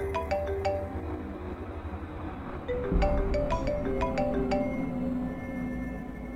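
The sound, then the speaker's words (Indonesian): A mobile phone rings with a melodic electronic ringtone: bright, repeating chime-like tone phrases that come in two bursts over a steady low background hum. “Ketika aku berjalan ke arah dapur, handphoneku berdering. mengagetkanku.”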